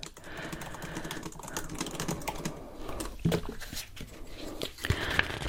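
Intense tapping heard as a dense, fast run of many light, crisp taps, like fingertips on a keyboard. They flow continuously at a steady, moderate level with no talk.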